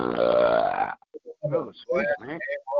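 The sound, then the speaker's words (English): A loud, drawn-out belch of about a second, deep and resonant, then short bursts of speech. “one of the most humongous belches I have ever heard of.”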